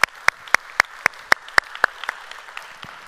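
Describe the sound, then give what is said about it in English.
A church audience claps in a steady rhythm to welcome online viewers, each sharp clap evenly spaced, with the beat fading toward the end. “So if you would, put your hands together and welcome them into our time of study here this morning.”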